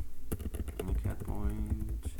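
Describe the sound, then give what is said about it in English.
Fingers type on a computer keyboard during a live software demonstration, a fast, irregular patter of clicks and clacks running throughout while a man talks over it. “See, you see how I'm typing? This is interactive.”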